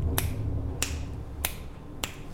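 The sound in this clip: Four finger snaps are made for a sound calibration check. They are sharp, crisp, and evenly spaced at a steady pace, heard alone over a faint low hum.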